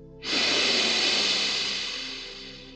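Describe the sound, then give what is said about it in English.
A deep breath drawn in: one long, steady, airy hiss that starts abruptly, holds, then slowly thins out over about two and a half seconds. “And then exhale completely. Inhale deeply again.”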